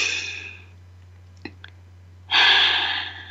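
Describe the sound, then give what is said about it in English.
A person breathes in deeply during a guided breathing moment. A soft breath fades out, two tiny clicks follow, then a loud, airy inhale rushes in and is held for about a second over a steady low hum. “Let's breathe that in.”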